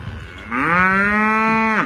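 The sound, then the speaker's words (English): A cow moos once, a loud, low, drawn-out call that swells at the start, holds steady and drops away at the end, with nothing else around it. “Random cow.”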